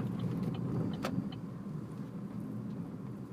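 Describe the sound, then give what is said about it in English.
A car pulling over gives off a faint, steady low rumble of engine and road noise with no clear change in pace, broken once by a brief light click. “I've got to actually now pull over because I don't even know where the fuck I am.”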